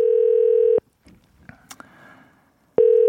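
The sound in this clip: A telephone call is being placed. A steady, loud ringing tone sounds once, then falls silent for a couple of seconds under faint line noise, and starts again at the end.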